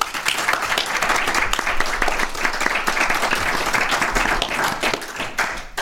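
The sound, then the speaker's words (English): Applause from an audience thanking their hosts, a full crowd clapping in a busy, crackling texture that swells and dips slightly before tapering near the end. “let's hear a big round for the good folks who brought us out here.”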